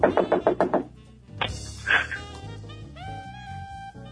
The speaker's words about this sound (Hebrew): נמצא ליד הדלת, יכול להקיש בה. נכון. בעוצמה. נכון. וברגישות.